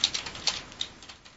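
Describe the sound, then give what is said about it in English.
Faint keyboard typing as a message is entered, many quick, light clicks in an uneven patter with a few sharper keystrokes standing out. “Let me type in a message here to somebody.”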